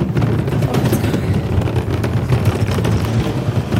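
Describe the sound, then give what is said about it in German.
A car pulls away with a steady low engine and road rumble and some wind buffeting. The noise stays at an even level throughout, with no talk. “wir fahren los Richtung Arbon”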